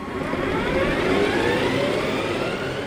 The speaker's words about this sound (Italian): In netta crescita, le vetture dotate di motore elettrico, come quello che stiamo appunto ascoltando in sottofondo